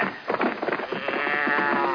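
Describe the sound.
Cattle bawl and moo during a branding, several overlapping calls merging into a dense, steady lowing that holds fairly loud for two seconds with no voices.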